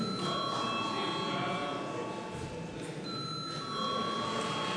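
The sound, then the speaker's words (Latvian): A parliamentary bell rings to call members to a vote, a steady, continuous ringing tone that holds at an even level for the whole clip. “lūdzu zvanu”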